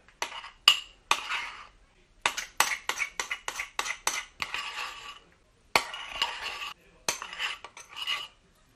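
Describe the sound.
Metal cutlery rattles and clinks as a spoon is taken from a cupboard and ground ginger is added to flour in a mixing bowl for gingerbread, giving many sharp, bright clicks in quick clusters with short pauses between them.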